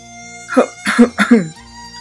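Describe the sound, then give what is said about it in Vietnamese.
A dry cough, voiced by a narrator in a spoken story: three short, throaty bursts in quick succession, fairly loud and alone. “Hạ Vũ ho khan một tiếng”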